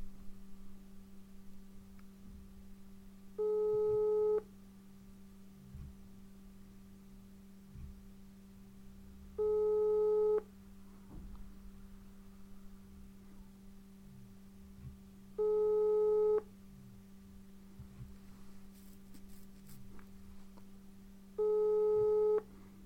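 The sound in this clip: Outgoing telephone call ringing on speakerphone: four evenly spaced tones, each about a second long with several seconds of silence between them, over a constant low hum. No one talks.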